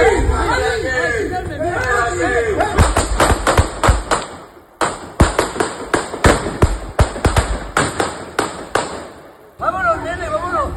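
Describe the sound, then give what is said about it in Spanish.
Gunshots from attackers firing at Guardia Civil officers, filmed by a local neighbour: many sharp, loud bangs in quick, irregular succession, with crowd chatter heard at the start. “La Asociación Unificada de la Guardia Civil ha publicado un vídeo en X grabado por un vecino de la zona en el que se ve cómo los agresores disparan contra los agentes.”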